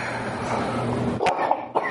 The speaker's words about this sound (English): You better be sorry for coughing while I'm talking.